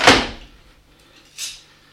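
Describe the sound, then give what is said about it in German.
An iron bar is set into a door frame and clamped with two bolts. It gives two sharp, hissing metallic clunks: a louder one first, then a softer one over a second later, with no voices. “Hier diese Eisenschiene lagert in der Türfassung und muss mit den beiden Riegeln festgeklemmt werden.”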